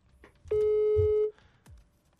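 An outgoing call ringing on a telephone: one steady electronic tone lasting under a second, clear and fairly loud, with only faint background noise before and after it.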